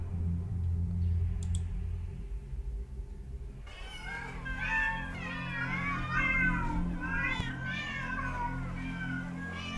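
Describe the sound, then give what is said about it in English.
Many cats meowing at once: a low steady rumble gives way to a sudden, loud chorus of overlapping high meows and yowls that carries on to the end. “Hundreds of cats.”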